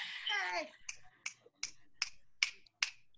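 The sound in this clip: Sharp finger snaps ring out in a steady, evenly spaced series after a brief voice at the start, each snap a crisp, bright click with short silences between.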